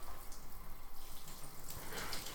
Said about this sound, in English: I need to turn off the water then.